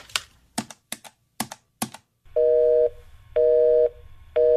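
An unanswered telephone call with a busy tone: a few sharp key clicks, then a repeating electronic tone in evenly spaced pulses, steady and fairly loud, with no voices.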